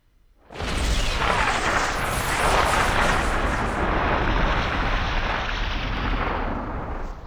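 A magical spherical construct explodes in a cavern with a huge, roaring blast that erupts abruptly after a brief quiet start, then sustains as a dense, loud rumble through to the end, easing only slightly.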